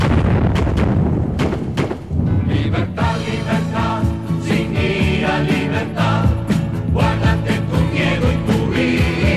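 Gunfire on the command to fire: a rapid run of sharp, loud cracks, followed by a dense, sustained roar with more scattered bangs.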